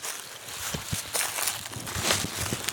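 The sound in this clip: Hurried footsteps of people running away on foot near wild boars: a run of uneven crunching steps over a steady rustling noise, with no talk.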